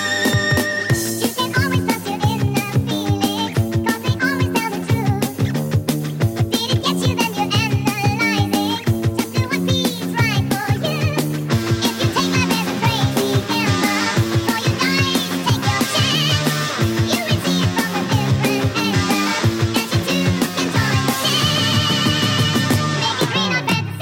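Rock song, the opening track of a 1980 album, plays continuously and loud with a full band and steady driving drums throughout, and no talk over it.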